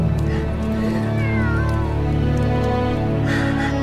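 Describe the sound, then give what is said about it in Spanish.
A queen's female cat meowing: drawn-out, wavering meows that rise and fall in pitch, loud and clear over a steady low tonal hum. “Aparece la gata de la reina.”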